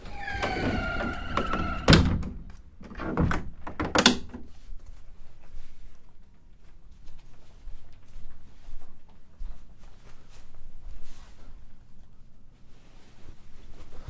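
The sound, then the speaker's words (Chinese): A balcony door of a Royal Caribbean cruise ship cabin slides shut, giving a couple of sharp knocks and thuds early on, then quieter low hum and faint rustles. “我把这个阳台的门关上。”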